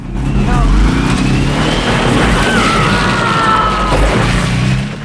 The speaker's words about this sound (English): He pumps the accelerator. The truck inches forwards.